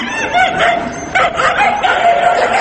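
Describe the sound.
Stray city dogs barking and yipping, many sharp barks in quick succession that overlap one another, loud and busy throughout.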